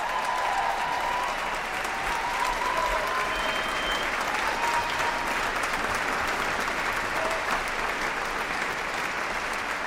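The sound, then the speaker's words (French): Enthusiastic audience applause at the Victoria Hall in Geneva after Luciano Berio's Coro at the Festival Archipel, a sustained, dense roar of clapping that holds steady for about ten seconds. “Nous quittons le public en délire, public du Victoria Hall qui a accueilli ce coro de Luciano Berio, puisque ce soir nous étions au Festival Archipel de Genève 2026”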